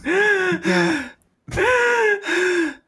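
Heavy, voiced panting from a person out of breath: four loud gasping breaths in two pairs, separated by a short silence.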